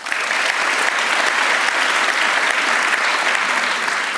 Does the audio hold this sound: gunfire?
no